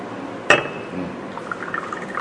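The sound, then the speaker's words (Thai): Hot tea poured into a glass: one sharp glass clink, then soft, faint trickling of liquid. “ถ้าว่าผมเนี่ยเทชาลงในแก้วเทชาลงในแก้วนะร้อนหรือเปล่าร้อน”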